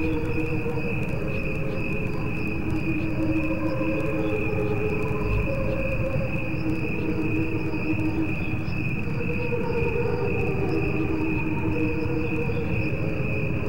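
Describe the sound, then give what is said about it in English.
Recorded crickets sing in two layered tracks, one at normal speed and one slowed down: a continuous high trill sits over lower, slower pulsing tones, steady and unbroken for about fourteen seconds, with no voices. “What you are hearing is a recording of crickets. There are two tracks. One is played at regular speed, and the other is a slowed down version.”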